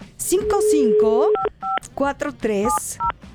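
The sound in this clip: Telephone keypad tones sound as a call is dialed to reach a contest winner, a few short electronic beeps scattered between stretches of a person talking.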